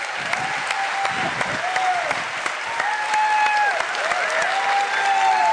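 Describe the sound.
Audience applause greeting a guest speaker at an evening event: continuous, even clapping mixed with crowd noise and several rising whistles, swelling slightly louder toward the end.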